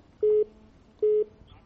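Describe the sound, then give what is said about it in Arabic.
A telephone call connects with two short, identical mid-pitched tones, evenly spaced and clear over a quiet background. “معنا اتصال من تونس”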